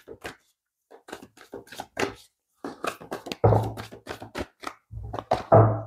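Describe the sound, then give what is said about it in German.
Shuffling a deck of cards during a card reading: soft riffles, taps and thuds come sporadically at first, then in denser bursts in the second half, with a low hum under some of them. “dass diese Karten hier durch die Gegend fliegen und schon wieder, und ich mische wie immer”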